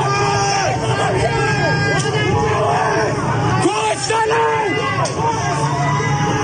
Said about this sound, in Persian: اینجا منطقه زینبیه اصفهانه که یه نفر مورد تیر مستقیم قرار میگیره و مردم خیلی شروع به داد و فریاد میکنن.